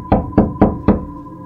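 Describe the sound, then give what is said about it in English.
Four firm knocks on a front door, sharp and loud, evenly spaced, with a faint steady hum underneath and nothing else. “You'd hang a white cloth outside your front door. Then there'd be a knock.”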